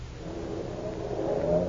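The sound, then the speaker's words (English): A car driving away, its low engine drone faint and steady, swelling slightly toward the end, with no voices. “He's driving away.”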